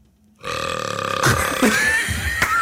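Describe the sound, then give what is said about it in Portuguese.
A voice imitates a long, loud belch heard outside a grocery shop. It is one sustained, low, rasping burp with a few sharper bursts, and nothing else is heard. “um grão de arroto”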